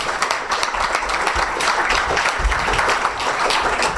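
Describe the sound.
Audience applause at a lecture panel, greeting a professor called to the stage to speak on the Iranian revolution: loud, dense, continuous clapping from many hands that holds steady for the whole stretch without voices.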